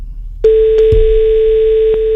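A ringback tone sounds on an outgoing telephone call: a steady, single-pitched electronic tone starts abruptly and holds without a break, with a few faint clicks at the start.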